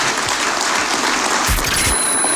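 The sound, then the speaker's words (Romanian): An audience applauds a radio morning team at Digi FM with dense, steady clapping that stays loud throughout. A few soft low thumps come near the end. “V-aș ruga să aplaudăm echipa.”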